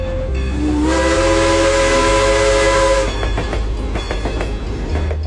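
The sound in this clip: A steam train's whistle sounds at a small village railway station on Prince Edward Island. One long, loud, harmonic blast with airy hiss lasts about two seconds, then gives way to hissing steam and a rhythmic clatter.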